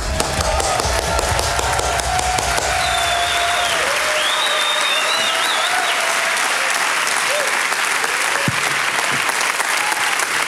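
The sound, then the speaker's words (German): A church audience at ICF Zürich stands and applauds to welcome a guest speaker, with dense, steady clapping that runs unbroken from start to end and some cheering mixed in. “Lass uns aufstehen und Juan Mogi mit einem Toastapplaus begrüßen in ICF Zürich Common Church.”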